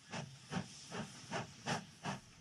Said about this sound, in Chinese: 客车很快又在铁轨上疾驰起来。